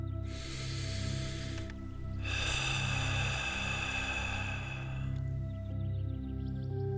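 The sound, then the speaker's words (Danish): Audible exhalations blown out through the mouth in a guided breathing exercise: two long, airy, hissing breaths, the second longer than the first, over a steady, soft musical drone. “Rams udåndingen ved at sætte lyd på din udånding, så det lyder sådan her.”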